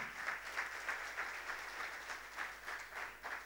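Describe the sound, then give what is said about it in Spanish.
A crowd applauds with many hands clapping in a dense, fairly quiet wash. A loose rhythmic pulse runs through it, and no voices are heard over it. “Let us clap hands. Un aplauso aquí.”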